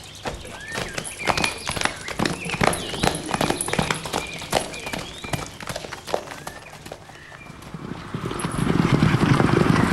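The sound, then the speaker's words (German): A horse's hooves clip-clop as a rider approaches in Verona, with many quick, sharp hoofbeats in a steady, hurried rhythm and a rising rush of sound near the end. “Reitet uns fast über den Haufen. Eilig hat er es.”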